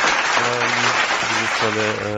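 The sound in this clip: Applause for a quiz, a thick, continuous wash of clapping that stays loud and even throughout while a voice talks over it.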